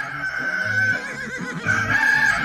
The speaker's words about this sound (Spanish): ¡Párese que ya cantó el gallo!